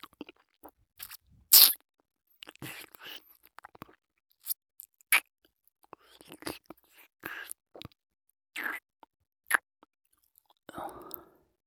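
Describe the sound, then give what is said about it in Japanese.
Someone tastes crunchy food with quiet, crisp bites and chewing. Many short crackles fall at irregular intervals, and soft whispering comes through now and then. “ちょっと味見しちゃいますね。”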